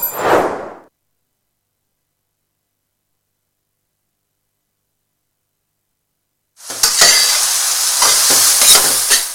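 Food frying and being stirred in a pan: a brief sound at the start, a long silence, then loud, bright sizzling with scraping stir strokes that carries on steadily to the end.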